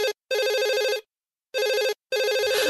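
A warbling electronic telephone ring sounds in several loud bursts, the trilling tone pulsing rapidly within each burst, separated by short silent gaps.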